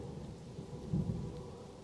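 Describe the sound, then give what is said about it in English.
Thunder rumbling during a thunderstorm: a low, continuous roll that swells briefly near the middle, then settles back into a steady murmur. “It's getting kind of... kind of stormy.”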